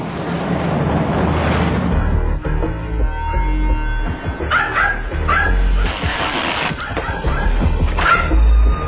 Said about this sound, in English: Hey, shut up the dog!